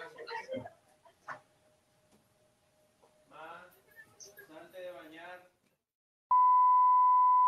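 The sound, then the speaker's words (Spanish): A seismic alert cuts in abruptly near the end as a loud, steady, high-pitched tone, after a stretch of brief speech and faint clatter. “Está sonando la alerta sísmica.”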